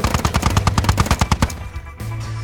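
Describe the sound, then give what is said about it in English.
A chain gun fires a rapid, sustained burst of many evenly spaced shots. The harsh reports hammer out for over a second, then break off into a ringing tail and a low, steady hum. “Our line won't hold. The chain gun is tearing through us.”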